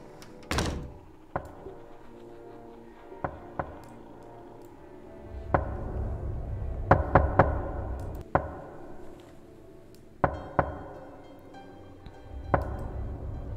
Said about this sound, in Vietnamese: Tiếng gõ cửa vang lên trong màn đêm.